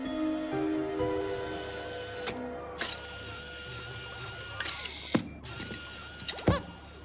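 Mechanical clicks and clacks of a claw crane machine in a video game set in a gaming arcade. A few sharp ratcheting transients stand over a steady, humming tonal background.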